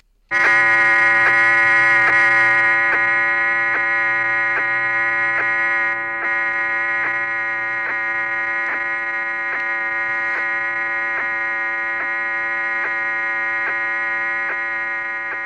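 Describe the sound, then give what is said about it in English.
Telemetry from the Mariner 4 space probe near Mars, rendered as audio: a loud, buzzy tone rich in harmonics, pulsing in a fast, even rhythm that runs continuously for about fifteen seconds. “That's the sound of the telemetry from Mariner 4.”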